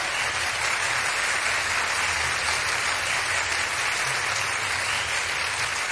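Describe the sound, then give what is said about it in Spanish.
Applause from the crowd at a live cumbia concert: dense, steady clapping that stays loud and unbroken for the whole stretch, with no pauses and no clear voices. “El aplauso para el Chelito de Castro.”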